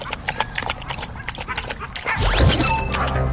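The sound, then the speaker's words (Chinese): Fifteen dogs bark during a drinking challenge: many rapid, overlapping barks run throughout, and the din grows louder toward the end. “现场十五条狗的这个叫声的噪音是非常的大”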